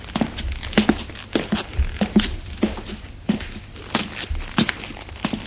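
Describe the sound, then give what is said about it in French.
Footsteps climb a staircase: many dull thuds and soft scuffs at a steady walking pace, fairly faint throughout. “Et on lui fait monter les escaliers.”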